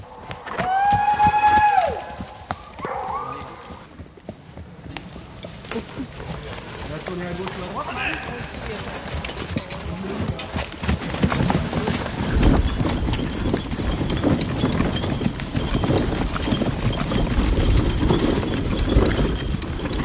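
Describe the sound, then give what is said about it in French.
Hooves of a black horse pulling a small cart clip-clop in a steady, continuous rhythm, with people talking over them. “Alors là, on est sur un attelage. On est sur une espèce de petite charrette avec...”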